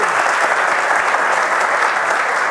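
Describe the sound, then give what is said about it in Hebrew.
Loud, dense applause from an audience, a continuous wash of clapping with no talk over it, steady in level from start to finish. “תודה, כפיים לחברים”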